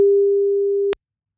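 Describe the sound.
A telephone line connects for a call during a radio phone-in: one steady low tone holds for nearly a second, a sharp click cuts it off, and silence follows.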